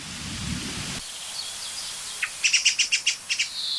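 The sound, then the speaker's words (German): An excited song thrush calling from a large old oak: a rapid run of high, sharp chirps bursts out after a quiet stretch of steady hiss, the notes clipped and closely spaced. “Also da hören wir wieder eine aufgeregte Singdrossel.”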